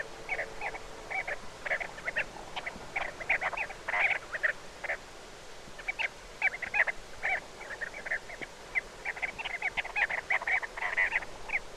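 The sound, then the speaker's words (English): Chestnut-bellied sandgrouse calling in flight over the Arabian desert of Oman: many short, chattering calls in quick, uneven bursts, faint but continuous throughout. “Here's the sound of some chestnut-bellied sand grouse in the Arabian desert of Oman. They're calling in flight.”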